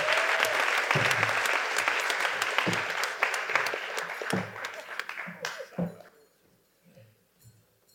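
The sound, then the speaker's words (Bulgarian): Applause from the audience at a comedy roast, a loud, dense rattle of clapping that thins out and fades after about six seconds, leaving faint voices talking. “Хора, дайте ни бурни аплодисменти за дядо Коледа.”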